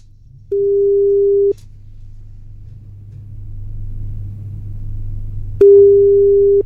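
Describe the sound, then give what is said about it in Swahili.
Ringback tone on a telephone line as a Radio 47 studio calls a listener for a call-in segment: two long, steady, mid-pitched buzzing tones separated by a stretch of low rumbling line noise. “tunakupigia simu kutoka Radio 47 hapa ndipo”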